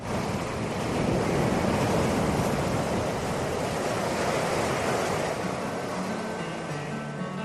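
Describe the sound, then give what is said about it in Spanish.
Sea waves wash onto a beach in a steady, broad rushing roar that swells slightly early on and then holds at an even, loud level throughout, with no voices. “Es un sonido que te relaja cuando no te engulle. Es el agua que baña una playa”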